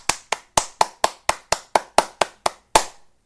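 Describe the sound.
Hands clap in a steady, even rhythm, about twelve sharp, loud claps spaced evenly apart and heard alone, with the final clap ringing out briefly before silence.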